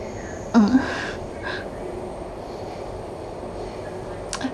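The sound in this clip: A subway train runs along with a steady low rumble and hiss from the carriage, broken by a brief clunk near the start.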